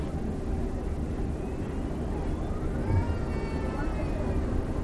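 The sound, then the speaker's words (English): Airplane engines start up at the end of a runway before takeoff. A steady low rumble runs throughout, and a thin whine rises in pitch from about midway. “Well, we're at the end of the runway now. Just about ready to take off, I would think. There the engines go.”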